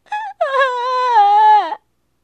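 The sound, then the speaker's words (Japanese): A child wails after a dog has eaten his cat: a short wavering cry, a brief break, then one long, loud, sustained wail that sags slightly in pitch before stopping abruptly. “と泣き出しました。”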